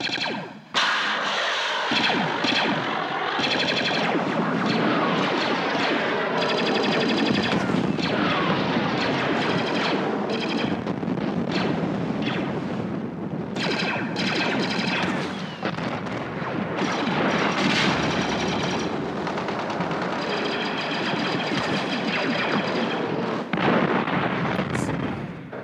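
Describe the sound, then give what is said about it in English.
Star Wars Utapau battle effects by Ben Burtt: a continuous, dense barrage of booming explosions, artillery-like blasts and rapid gunfire that stays loud and layered throughout. “Let's check out Utapau battle sounds.”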